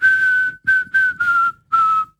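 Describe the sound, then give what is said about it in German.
A person whistles a short melody of five clear notes, the first held long and the rest shorter, the pitch easing slightly downward across the phrase, with no other sounds. “auf der Bank sitze und die Amseln anfangen zu trällern, kann ich ihnen eine Melodie vorpfeifen.”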